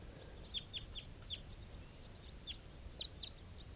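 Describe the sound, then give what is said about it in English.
A flock of about ten wild birds flying over gives faint, short high-pitched calls. Several brief chirps come at irregular intervals over a low, steady background rumble. “Wild birds type 4s, a flock of about 10 flying over.”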